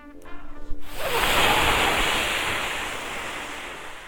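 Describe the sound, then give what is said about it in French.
A hard gust of wind, like a wolf blowing on a small house: a short tonal sound leads into a loud, broad rushing whoosh that swells quickly and then slowly fades over about three seconds. “Le loup alors gonfla sa poitrine et souffla de toutes ses forces, ce qui fit trembler les murs de la maisonnette.”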